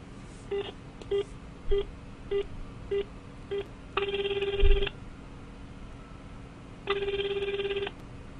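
Telephone keypad tones and ringback on an outgoing call: a run of short, evenly pitched dialing beeps, then two steady ring tones of about a second each, separated by a pause.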